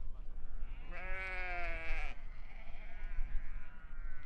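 A sheep from a flock bleats at a summer pasture pen: one loud, clear bleat lasting about a second over a low, steady background rumble.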